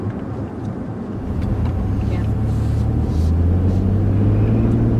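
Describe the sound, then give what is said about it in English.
A car drives around Texas south of Houston, giving a steady low engine and road rumble that grows slightly heavier partway through and then holds even to the end. “It's toward the end of 2021, and we're driving around Texas together.”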